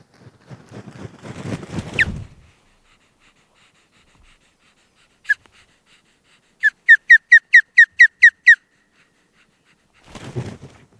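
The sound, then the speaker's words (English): An osprey calls as it arrives at its nest after spring migration, giving one sharp whistled chirp and then a rapid, evenly spaced run of high piercing chirps, with brief breathy rustling noise at the start and end. “that's the sound of an osprey returning to a nest after a long wing migration in the spring.”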